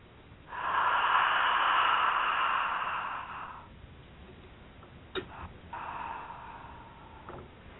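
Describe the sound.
A deep breath during a guided breathing exercise: a long, breathy, airy rush lasting about three seconds, then a quieter pause and a softer second stretch of breath noise, faint overall and with no speech.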